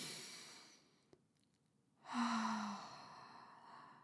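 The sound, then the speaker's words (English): A single deep breath, drawn in through the nose and let out through the mouth, with a loud, airy, sigh-like exhale that swells and then slowly fades. No one talks. “intentional in through the nose, out through the mouth breaths, like that”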